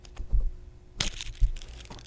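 A fortune cookie is cracked open and crunched, with a sharp, bright crack near the middle followed by a few softer crunches and dull low thumps.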